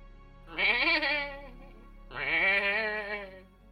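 Sheep bleating, heard as two long, loud, wavering bleats with a short pause between them.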